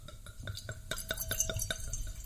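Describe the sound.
Wine glugging as it is poured into a glass, a steady rhythm of many short gurgling pulses with faint glassy clinks, fairly quiet and with no talk over it.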